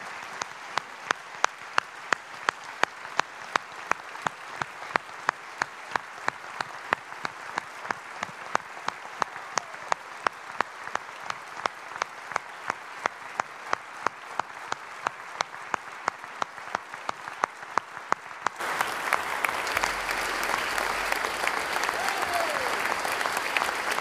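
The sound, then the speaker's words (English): A gathered audience gives a couple a warm round of applause: a long stretch of steady, evenly spaced rhythmic claps, then a denser continuous burst of clapping near the end, all fairly faint. “I know you want to join with me and showing our love and appreciation again to Bill and Linda by giving them a warm round of applause.”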